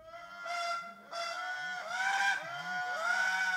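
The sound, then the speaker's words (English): Clarinet-like toots of the Indri, a big tailless treetop lemur of Madagascar's forests: several long, wavering tonal calls with rich harmonics, some sweeping upward in pitch, fairly soft and uninterrupted. “Well, these are the amazing sounds, clarinet-like toots of the Indri, the last of the great lemurs. This is a big treetop lemur with no tail.”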